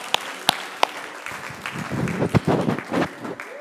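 Applause from a church audience giving the Lord praise during a service: a few sharp early claps, then a dense, steady patter of clapping that swells and carries on to the end.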